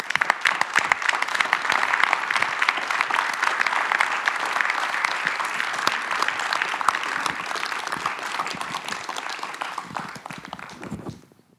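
Sustained audience applause welcoming Jean-Michel Cazes, a pioneer of wine tourism, onto the stage: dense, steady clapping from many hands holds at an even level for about eleven seconds, then tapers off quickly at the end.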